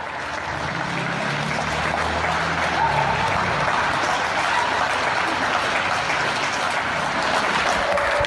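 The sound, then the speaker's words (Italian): Sustained applause at midday in tribute to medical staff in Italy: a dense, steady wash of many hands clapping that runs the whole way through without a pause. “a mezzogiorno, gli applausi per il personale medico.”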